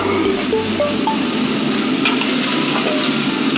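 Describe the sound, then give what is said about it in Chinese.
Crab pieces sizzle and fry in hot fat over high heat for a spicy crab dish, a loud, steady, hissing crackle that holds even throughout. “肥油大火能迅速爆香所有的蟹肉，”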